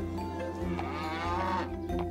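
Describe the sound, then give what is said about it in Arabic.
Mooing from a large cow bought at a livestock market, a low, drawn-out bellow held steady over the whole moment. “ثم ذهبنا إلى سوق المواشي، وهناك اشترى جحا بقرة كبيرة.”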